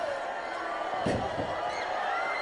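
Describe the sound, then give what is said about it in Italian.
A single heavy slam as a wrestler is thrown against the metal guardrail during a pro wrestling match, a brief crashing thud that rises out of a steady background din, with talk running underneath. “Barud viene sbattuto contro il guardrail, da parte di Abyss.”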